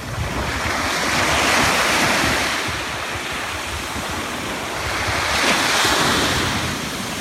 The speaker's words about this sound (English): There's our spot on the beach. You have to climb down that cliff to get there